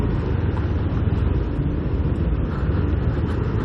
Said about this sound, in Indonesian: anjing Harley mini ini, itu CC-nya paling 500.